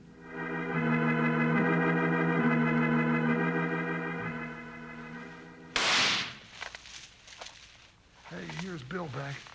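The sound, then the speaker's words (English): A gunshot cracks during a shootout in a radio western drama: a sustained musical chord holds for several seconds, then one sharp, loud crack bursts out, followed by scattered crackles and then voices talking. “Now you can stop shooting and we'll see if this little trick will work.”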